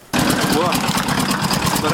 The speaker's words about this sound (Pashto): یو رپورټ راستولی چې د یو جرناتور په غږ پیلېږي